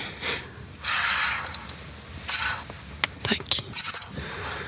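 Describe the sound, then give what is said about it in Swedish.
A curtain is drawn closed in two bright, hissy swishes of fabric sliding along a rail, followed by a few shorter rustles and soft clicks. “Kan du dra för gardinen och sänka ljuset lite?”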